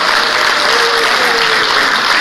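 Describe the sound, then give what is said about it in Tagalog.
An audience claps for municipal health officers at an awards ceremony. Dense, loud, even applause holds steady from start to finish, with no clear voices. “Okay, so let us clap our hands to our MHOs.”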